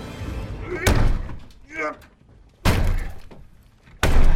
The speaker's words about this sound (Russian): Капитан рубит топором дверь.